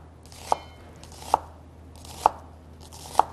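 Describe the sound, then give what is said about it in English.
A knife chops through food on a cutting board in four sharp, evenly spaced strikes, each a crisp knock standing alone over a quiet background. “Cut through the middle one more time. And this is a great way to chop them. Just much faster.”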